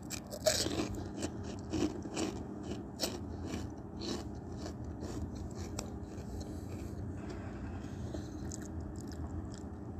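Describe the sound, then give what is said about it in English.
Crunchy pork rinds are chewed close-up as an ASMR mukbang lunch, giving many faint, crisp crunches in an irregular rhythm over a low background, with no talking. “My meal consists of pork rinds, an oatmeal cream pie, and a Pepsi.”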